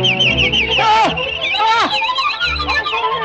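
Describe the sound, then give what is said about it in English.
A flock of sparrows swarming, a loud, continuous mass of high, warbling twitters and chirps that overlap densely, with some lower sounds beneath. “The sparrows swarm the hag.”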